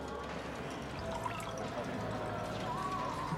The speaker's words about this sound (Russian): Он ставит перед ней бокал, наливает красное вино.